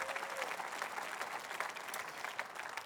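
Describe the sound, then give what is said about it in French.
Applause from a church audience: fairly faint, continuous clapping that forms a steady rustling texture, with no voices standing out. “Est-ce qu'on peut l'applaudir à l'avance, « Tout est possible. »”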